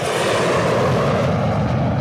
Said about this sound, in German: Der Flughafen Berlin-Tegel, die späten 80er. Ein kleines Mädchen staunt über die startenden und landenden Flugzeuge.